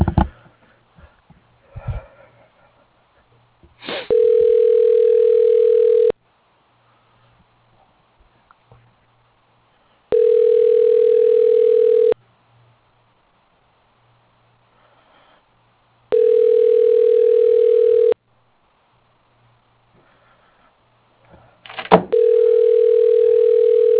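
A telephone line tone sounds while a call is being transferred: four long, even, mid-pitched tones with silent gaps between them, the last cut off at the end. A few clicks come before the first tone.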